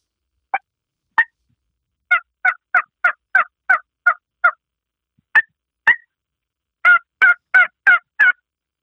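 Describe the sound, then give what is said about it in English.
A two-reed turkey call with a slit and tear-out reed, the M150, imitates a turkey gobbling in sharp, evenly spaced yelping notes. Two single notes and a quick run of eight are followed by two more and a closing burst of five fuller notes. “We call it the M150. It has a slit and a tear-out in the reed. It's very similar to the strut cut that I helped design for Hunter Specialty. This is a two-read call. Listen to this.”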